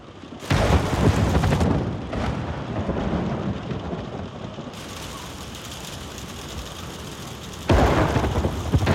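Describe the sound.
A thunderstorm pours steady, heavy rain throughout. Two loud crashes of thunder break through it, one near the start and another near the end.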